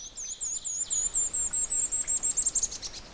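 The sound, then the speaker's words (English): A golden-crowned kinglet sings a rapid run of many very thin, extremely high-pitched notes, each note clear and evenly spaced, closing with a brief brighter flourish; no voices. “and then it makes a little chickadee-like ending. That's a golden-crowned kinglet.”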